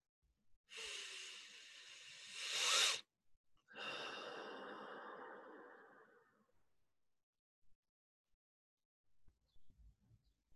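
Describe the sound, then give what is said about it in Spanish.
One slow, deep breath is drawn in through the nose for about two seconds, then let out through the mouth in a longer exhale that gradually fades. A few faint soft sounds follow in the quiet. “tomamos tres respiraciones lentas y profundas, inhalando por la nariz, exhalando por la boca.”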